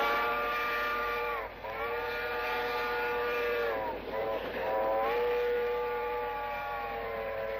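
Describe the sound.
A departing train's steam whistle sounds as one long, loud, steady harmonic tone, broken only by two brief dips before it resumes at the same pitch.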